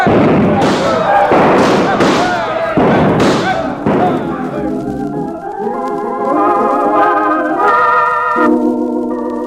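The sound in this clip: Several pistols fire in a shooting contest, a rapid run of loud, sharp cracks and thuds over the first four seconds, then giving way to sustained tonal sound.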